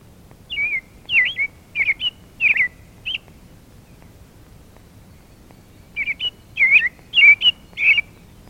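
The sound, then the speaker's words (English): American robin singing two bouts of short, clear, whistled chirps that rise and fall in pitch, each bout a quick run of several notes separated by a brief quiet pause. “The robin song is a rising and falling cheerio, cheerie, cheerie.”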